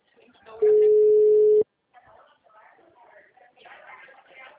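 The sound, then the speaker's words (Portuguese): Telephone tone while calling another number, a single loud, steady beep lasting about a second that cuts off abruptly, followed by faint voices talking. “eu te liguei por um outro número agora, porque pelo celular tava muito ruim.”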